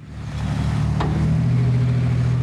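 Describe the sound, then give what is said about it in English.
Heavy haulers dumping huge piles of snow on Front Street in Nome give off a steady, low engine drone that swells slightly louder, with a brief brighter burst near the middle. “Monday, heavy haulers drown out the voices of bystanders as huge piles of snow are dumped on Front Street in Nome.”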